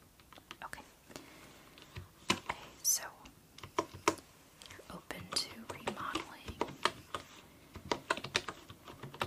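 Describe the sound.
Typing on a wooden computer keyboard: soft, irregular clacks and taps arrive in quick runs, under quiet whispered speech.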